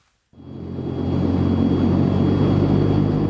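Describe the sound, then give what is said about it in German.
A German Air Force Transall military transport plane nears landing at the Kunduz military airfield. Its loud, steady droning roar breaks in abruptly after brief silence, swells over the first second, then holds as a dense, even rumble. “Erst kurz vor der Landung auf dem Militärflughafen von Kunduz reduziert der Pilot der deutschen Luftwaffe ganz abrupt den Schub. Die Transall geht in einen steilen Sinkflug über.”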